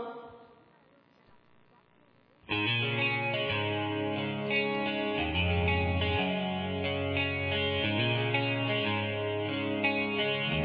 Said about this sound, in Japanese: ショート、ディレイプラスミディアムロングゲーテッドリバーブ。まあ、こういうのだそうですと。それで行ってみましょうか。